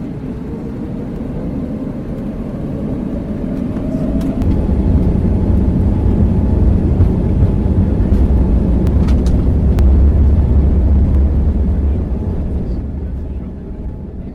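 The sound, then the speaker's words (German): Passenger airliner engines start up as a broad, low rumbling roar. It swells over the first few seconds, holds steady and loud, then eases slightly toward the end. “So within the next minutes we can start our engines.”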